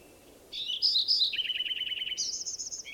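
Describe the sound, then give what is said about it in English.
A bird singing alone: a bright, high song of varied phrases, including a rapid trill of repeated notes and a final buzzy series, clear and fairly loud over faint background hiss. “First bird I recorded is also singing.”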